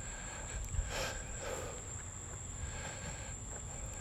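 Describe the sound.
Crickets and grasshoppers chirping on an evening run make a steady, continuous high-pitched trill through the whole clip over a low, constant background rumble.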